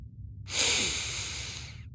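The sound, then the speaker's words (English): A single long, deep inhale drawn by a man, a breathy rush of air that swells quickly, holds steady for over a second and then stops, heard alone without other sounds. “The Doctor inhaled deeply as if taking in a breath of fresh air, which he surely hadn't had in some time.”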